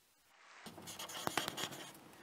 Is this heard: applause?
no